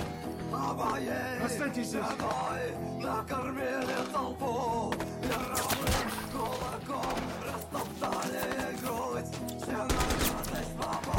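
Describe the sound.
Heavy automatic gunfire in a war film battle scene where grenades are thrown: dense, rapid bursts of shots and blasts continuing almost without pause, loud throughout.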